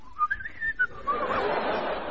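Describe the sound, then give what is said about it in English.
A person whistles happily in a short, cheerful tune of a few bright notes that wobble up and down. The whistle is moderately loud and gives way to a soft, breathy hiss. “Whistle happily.”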